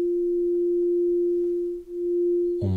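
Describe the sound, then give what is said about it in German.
Two pure sine tones sound together, detuned by five cents, and merge into one steady mid-pitched hum. The hum swells and dips once in a slow beating pulse, then gives way to a brief, different sound at the very end. “5 Cent Unterschied vom ersten zum zweiten Ton, merken wir jetzt schon ein wunderbares Pulsieren innerhalb eines Tones.”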